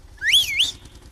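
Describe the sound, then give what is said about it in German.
A person gives one short, bright whistle at a woman, a clear tone that rises, dips and rises again before cutting off against quiet. “Na, jetzt muss ich da einmal an der Schneidinger Bulldog-Fahrerin da drin pfeifen.”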